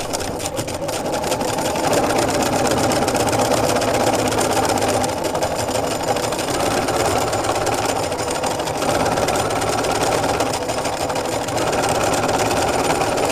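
A sewing machine stitches thread to fill in an area of fabric during textile design work, giving a steady, loud mechanical whir with a fast needle rhythm that runs unbroken for the whole stretch, with no talk.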